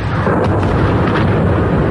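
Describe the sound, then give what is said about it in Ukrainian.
Dense, continuous rumbling roar from an explosion nearby in Moscow amid burning factories. The sound is loud and steady for the whole clip, with no voices. “Бахает. От взрывов орут машины, пищат здесь по соседству.”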